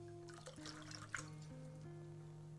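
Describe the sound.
Wine poured from a bottle into a glass at a family dinner table, a brief, faint trickle and splash over a steady low hum.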